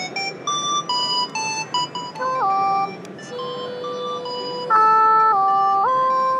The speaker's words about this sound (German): Es ist ein Gamepad und wenn ich die Tasten drücke, dann kommt Sound raus.